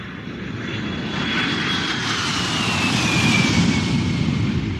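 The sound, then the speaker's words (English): Aircraft engines roar at an airport, a loud, steady rumble that swells toward the end, with a thin whining tone sliding downward in pitch above it. “Alright, we've made it to the airport.”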